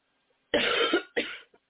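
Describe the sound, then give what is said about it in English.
Two coughs in quick succession from someone recovering from a two-week illness: a longer, harsh burst followed by a shorter one, then a faint catch of breath, all against silence. “Pardon me. You might get a little cough every once in a while.”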